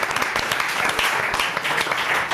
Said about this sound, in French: On peut applaudir, monsieur. Bravo.